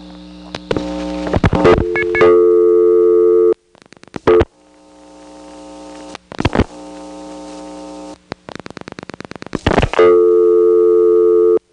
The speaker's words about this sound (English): Finally, a third dial tone, in this case the old dial tone, very loud, will come on, onto which I'll dial a 0.